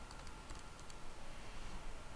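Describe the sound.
Typing on a computer keyboard to enter an answer into an online quiz, with a quick run of faint key clicks in the first second, then only a low, steady hiss.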